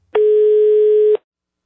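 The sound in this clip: A single steady telephone ringback tone plays before a call is answered. It is one loud, even, mid-pitched tone lasting about a second, alone, with no voices.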